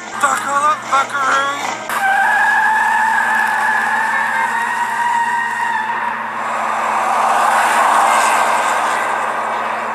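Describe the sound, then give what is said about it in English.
A car on an Uber ride pulls away with a sustained high tire squeal, which gives way to a broad roar of engine and road noise. Brief talk is heard at the start. “It's been real, but my Uber is here. I'm out.”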